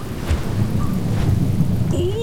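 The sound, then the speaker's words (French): Thunderstorm with lightning and heavy rain over the sea, a steady rumbling roar of downpour and low thunder, with faint whistling tones rising above it. “Le ciel s'assombrit. Des éclairs s'abattent sur la mer. Les nuages lâchent brusquement des trombes d'eau.”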